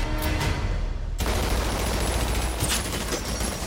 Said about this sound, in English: Connor shoots it to no avail.